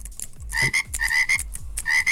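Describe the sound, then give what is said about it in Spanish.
A frog croaks over and over in a quick, rhythmic series of loud, raspy calls, with low thumping pulses beneath them. “Por favor, una rana para Martín, que no se quiere despertar.”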